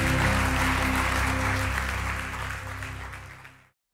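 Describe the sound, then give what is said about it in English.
A church audience breaks into applause, with a dense wash of clapping that holds steady and then tapers off quickly into silence. “Come on, put our hands together. Let's congratulate those people.”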